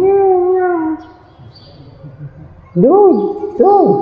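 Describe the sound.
A cat gives two short meows, each rising then falling in a whining arc, after a voice speaks briefly at the start.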